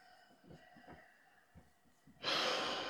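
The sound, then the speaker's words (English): A slow inhaled breath during a breathing exercise, with faint soft breaths at first and then a sudden loud, airy rush of air near the end. “see if you can make your inhale last at least 8 seconds.”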